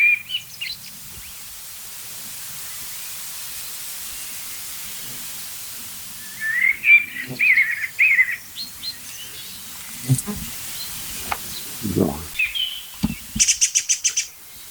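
Birdsong from blackbirds or an agitated song thrush: bursts of warbling, chirping phrases through the middle, then a rapid series of short ticking calls near the end, all over a faint hissing background.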